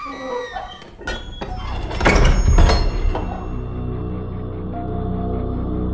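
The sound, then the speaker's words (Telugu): A door closing in a horror story scene: a few sharp knocks give way to a loud, heavy thump with a brief rattle, and a low tonal drone lingers steadily after the impact. “హఠాత్తుగా ఏదో door close అయిన sound వినిపించింది”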